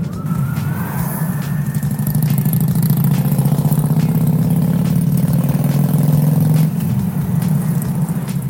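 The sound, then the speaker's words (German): A moped's engine rattles on the A44 motorway, heard while driving behind it: a loud, rough, steady low drone with a gritty rattling texture that continues throughout. “seit 15 Kilometern knattert dieses scheiß Moped vor mir her”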